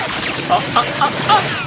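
Machine-gun fire from a 1987 Cantonese-dubbed animated series: four short, cracking shots with faint ringing tones, spaced evenly over a steady, noisy background.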